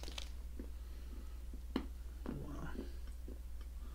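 Chewing and biting into a chocolate-flavored energy bar: soft, squishy crunches and a few sharper bites, fairly faint over a steady low hum.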